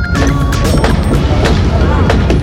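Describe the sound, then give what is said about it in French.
Sledgehammer blows strike the Berlin Wall as it is knocked down on 9 November 1989. Several sharp impacts cut through a dense, constant din of crowd noise and voices. “la chute du mur de Berlin, mur érigé en 61 par le bloc soviétique, et que vous entendez ici tomber sous les joyeux coups de masse de ce 9 novembre 1989.”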